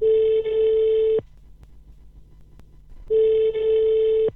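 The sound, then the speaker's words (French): Telephone ringback tone on an outgoing call: two long, steady, loud tones separated by a pause of about two seconds, with no voices. “mon rendez-vous téléphonique aujourd'hui pour Allô Parlons Jeunesse est avec Noura Keita, directrice de The Garden.”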